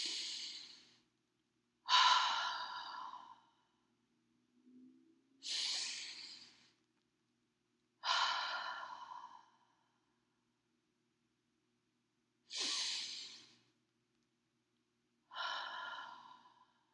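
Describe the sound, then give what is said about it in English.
Slow, deep breaths from a calm breathing exercise: a series of long, airy inhales and exhales, each a soft breathy whoosh that fades out. Quiet pauses separate them, and no one speaks. “I don't know if you just did those 3 deep breaths with me, but just that simple, simple exercise has gotten so much tension”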